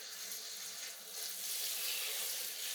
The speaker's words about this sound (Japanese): では、まずは軽くシャワーで流していきますね。ぬるめのお湯なので安心してください。